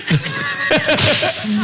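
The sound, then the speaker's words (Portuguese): Whip cracking as a man lashes a whip: a few sharp, snapping cracks in quick succession, loud and percussive, with a short gap after the first crack. “É o chicote que ele tá usando aí, ó.”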